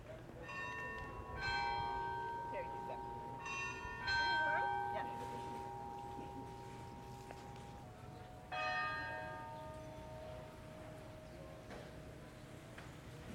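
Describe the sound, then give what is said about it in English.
The main church bell in the town square strikes a few times. Each clear metallic tone rings out in a long, slowly fading hum over a faint, steady background murmur. “You hear that? The strike of the main church in the square.”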